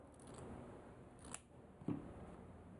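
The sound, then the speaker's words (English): Scissors snipping the corner off a fabric strip: two crisp, brief cuts, heard alone and faint against a soft background hiss. “Now take one side of each strip that you've just cut and square it off. You want to snip away that little diagonal piece so it looks like a square edge.”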